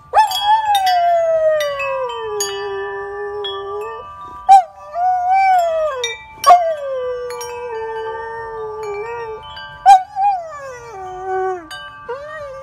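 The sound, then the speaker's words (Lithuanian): A dog howls a long, wavering song in four drawn-out phrases. Each starts sharply, then glides downward in high, tonal wails separated by brief gaps. It is loud and heard alone, without talk. “O mūsų geras laidos draugas Šuniukas atlieka jums savo autorinį kūrinį Sveikinu atėjusi pavasarį.”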